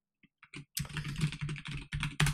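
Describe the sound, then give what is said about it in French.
Typing on a computer keyboard: a few isolated taps, then a quick, dense run of clacking keystrokes, crisp and moderately loud. “Voilà, je tape PIF Magazine”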